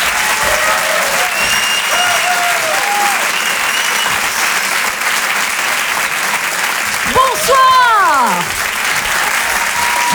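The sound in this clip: A theatre audience applauds and cheers a French stand-up comedian as she comes on stage. Dense clapping runs steadily throughout, with a few whoops rising out of it near the end.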